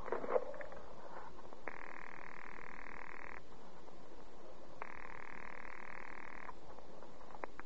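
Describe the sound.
A telephone call is being placed, heard as two long, even ringing tones on the line separated by a short pause. Faint clicks come before them, and the whole clip is quiet.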